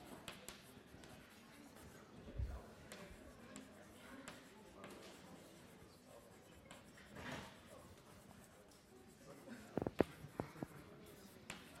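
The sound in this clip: Scratchy writing strokes during a mathematics explanation form a faint, continuous rasp with a few sharper taps toward the end.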